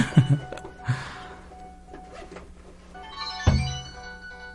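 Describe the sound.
Phone ringtone of an incoming call, a faint tonal ringing over low background hum, broken by a few soft thumps.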